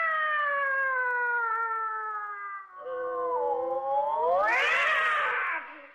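Fighting cats let out long, wavering yowls that hold steady for several seconds, then swell louder and climb in pitch near the end with a harsh, noisy edge before dropping away.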